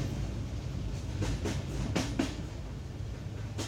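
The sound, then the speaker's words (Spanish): A train rattles over worn rails past Belgrade: a steady low rumble with a few sharper clacks of the wheels over rail joints near the middle. “Carriles que suenan a querer partirse en dos a nuestro paso. Parece que, a partir de Belgrado, la posibilidad de descarrilar entra en el plan de viaje.”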